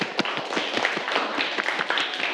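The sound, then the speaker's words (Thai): Students applauding in a classroom, a quick patter of brisk, sharp claps from a small group, fairly even in level. “ดูเฉลยพร้อมกันถูกต้องครับปรบมือนักเรียน”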